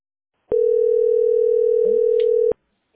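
A telephone dial tone plays as a second phone is tried while waiting in a call-centre queue. One steady mid-pitched tone lasts about two seconds and starts and stops abruptly, with faint brief sounds near its end.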